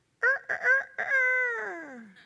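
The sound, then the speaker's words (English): A rooster crows on its own, starting with a few short, clipped harmonic bursts and then holding one long drawn-out note that slides steadily down in pitch before fading. “And he heard that rooster crow again the next day.”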